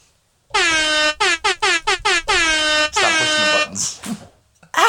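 A loud air horn sound effect blasts: one long blast, then a quick string of short staccato toots, then two longer sustained blasts, with a brief quieter sound near the end.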